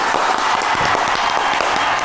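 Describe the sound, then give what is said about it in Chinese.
Loud, steady applause from an audience welcoming a guest on stage, a dense continuous wash of clapping with no talk. “我们掌声有请胡经理上场。”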